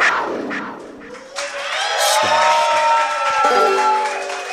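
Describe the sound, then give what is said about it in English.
A live studio audience at a comedy show clapping and cheering: loud, dense, sustained applause with whoops and shouts that holds steady for the whole stretch. “Look at all these people! There are so many people! It's crazy. Yeah, thanks for clapping.”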